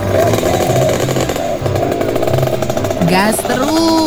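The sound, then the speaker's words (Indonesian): A rare old vehicle's engine, one that would likely fail an emissions test, revs hard and continuously. The rough, buzzing roar stays loud throughout with little letup. “Gas terus. Lo. Ini loh kendaraan langka yang harus dilindungi keberadaannya.”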